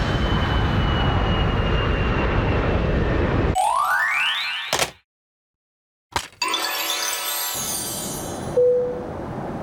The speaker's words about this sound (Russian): Наш самолет покинул аэропорт Нарита согласно расписанию.